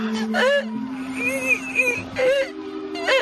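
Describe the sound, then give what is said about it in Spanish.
An infant cries in short, wavering wails that come in several bursts with brief gaps between them, over a steady low hum. A woman's voice speaks softly around the cries. “Llora, bonita, ya está. No intentes respirar, llora, puedes llorar. Eso es. Ya está, ves, no pasó nada.”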